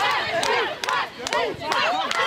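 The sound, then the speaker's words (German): Crowd cheering for the women's team of UH Adler during a winning streak of 32 straight victories. Loud whoops and shrieking voices rise and fall in waves, with brief dips between bursts. “Also Jubel und Applaus gibt's ohnehin schon für die Mädels.”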